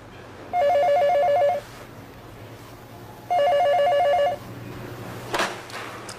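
A telephone rings in two separate bursts, each a rapid electronic trill lasting about a second, with a pause of quiet between them.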